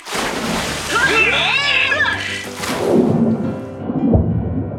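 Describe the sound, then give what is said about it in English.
Divers plunge into the sea to explore a wreck with a deep, rumbling splash and churning surge of water, warbling bubbly tones swirling through it, and the rush swells again in a second heavy wave. “Ready? Let's dive.”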